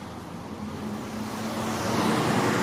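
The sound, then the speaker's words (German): Loud bus passing, a broad rumbling wash of road noise that swells steadily louder over a couple of seconds, with no voices. “Entschuldigung, lauter Bus.”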